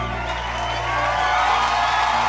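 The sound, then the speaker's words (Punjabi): An audience cheers and applauds for poet Surjit Patar at a recorded program with students: a steady, loud crowd roar with whoops and shouts, swelling slightly toward the end. “ਜ਼ੋਰਦਾਰ ਤਾਲੀਆਂ।”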